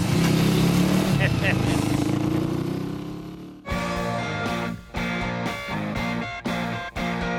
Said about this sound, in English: Wow, I haven't heard that engine in 30 years. It brought back so many memories.